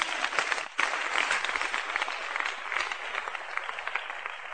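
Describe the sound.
A church audience applauds during a sermon, producing a dense, steady wash of clapping that holds at an even, moderate level for several seconds without fading.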